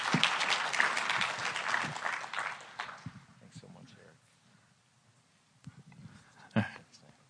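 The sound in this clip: A church audience applauds to welcome a speaker. Loud clapping fills the first few seconds, then fades to faint voices and scattered sounds.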